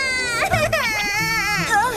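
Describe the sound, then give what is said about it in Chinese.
A young girl cries loudly in a wavering, high-pitched sob that rises and dips continuously, with brief catches in the voice, in a cartoon scene where she has been upset. “都怪你们把我妹妹给惹哭了。”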